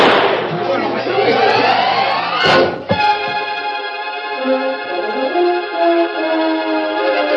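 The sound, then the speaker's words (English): A gunshot in a western drama, fired at a man after a drink is thrown in his face: one sudden, loud crack bursts between stretches of men's voices, and the talk carries on afterward. “Yeah, throw lick in a man's face so he can't see, then shooting him.”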